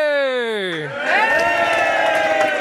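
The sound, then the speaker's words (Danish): An audience at a live radio show votes by cheering, breaking into a loud, dense burst of shouts and whoops. It comes right after a voice slides down in pitch. “Jeg synes, der bliver jublet godt igennem.”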